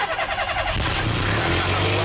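A car engine cranks and starts, a dense, loud mechanical roar that settles into a steady low rumble after under a second.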